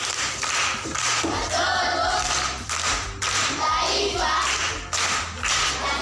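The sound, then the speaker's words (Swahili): Clapping for a primary-school pupil who has just answered in a proverbs quiz, a dense, steady patter of hands over a low, droning musical tone throughout. “Makofi kwa mjomba.”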